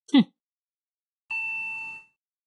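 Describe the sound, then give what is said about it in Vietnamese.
Elevator arrival chime as the lift reaches the seventh floor: a brief sharp knock comes first, then a single bright, sustained chime tone rings for under a second and fades. “Tiếng chuông báo thang máy đã di chuyển lên đến tầng 7.”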